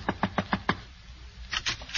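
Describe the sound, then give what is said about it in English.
Knuckles knock on a door in a quick run of five sharp raps. After a short pause, a few more softer knocks follow. “she disguised herself with a big hat and a veil and knocked at my door”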